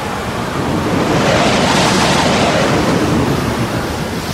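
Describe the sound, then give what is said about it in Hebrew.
A mighty wind blowing over the sea, a loud, broad rushing roar mixed with surging water that swells a little toward the middle and holds steady, with no voices. “רוח אדירה החלה לנשוב.”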